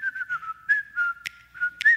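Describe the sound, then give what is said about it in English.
A person whistles a short jingle used as a family routine cue. The clear, lilting melody moves through several held notes with slight pitch bends, heard alone at moderate volume. “it's gotten to the point now where we just whistle this jingle”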